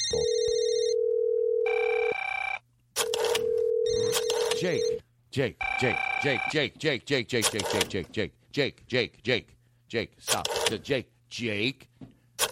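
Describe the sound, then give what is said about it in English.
A telephone ringing sound effect, repeated ring tones in steady bursts with brief gaps between them, followed by voices talking over the end. “Stop the phone. Okay, I've never done this before, but there is a problem. Okay. Stop. No, the bit is over. The bit is over. We do not need a phone sound effect.”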